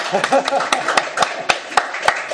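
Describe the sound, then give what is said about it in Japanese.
An audience claps at a gathering honoring a couple's long marriage, a series of sharp, evenly spaced claps in a steady rhythm, with a voice talking briefly at the start. “皆さん拍手しましょう”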